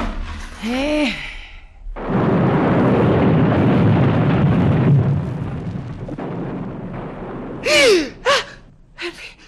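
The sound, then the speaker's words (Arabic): Explosions of buried explosives go off as one long, loud, rumbling roar lasting several seconds, with gasping breaths before and after it. “سامع؟ سامع ايه ده؟ انفجارات. تكونش المتفجرات اتنسفت؟”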